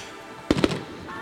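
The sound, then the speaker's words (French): Fireworks go off at a festival celebration. Two sharp bangs in quick succession stand out over a low, steady background rumble, with no voices. “Le feu d'artifice a démarré.”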